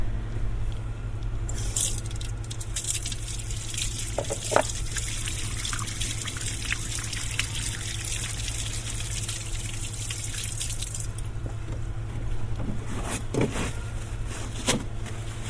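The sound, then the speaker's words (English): Water running from a tap into a white porcelain basin at an outdoor sink on a city farm as hands are washed: a steady, hissing flow with a few sharper splashes over a constant low hum. “So I've just got to wash my hands because I'm going in to see the animals. So I'm just going to do that here.”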